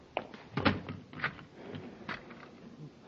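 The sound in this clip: A door being shut and locked on two prisoners aboard a spaceship in a radio drama, heard as a few quiet, dull knocks and clicks of the door and latch.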